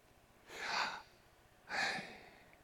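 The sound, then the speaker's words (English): Breath drawn in and pushed out without the tongue: two soft, airy bursts of breath noise, a longer one followed by a shorter one, heard alone over a faint low hum. “So pronounced correctly, Yahweh is an inhale and an exhale without the use of the tongue. It's this.”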